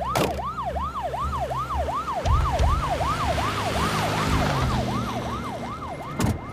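An ambulance siren wails in a fast, regular up-and-down cycle that repeats many times at a steady, loud level, with engine and road rumble beneath it.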